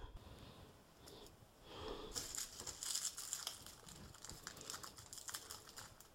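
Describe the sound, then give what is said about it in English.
Papery skin being peeled off garlic cloves, a faint, crisp crackle of many small crinkling rustles that grow busier partway through. “And then you can just peel off the flaky part, keep the rest, and we're going to chop that into small pieces.”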